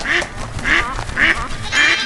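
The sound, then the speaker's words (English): A duck quacks four times in a video game, loud nasal calls evenly spaced about every half second, with no talking. “Whoa! Well, we have a duck already. I just have to... avoid the chicken.”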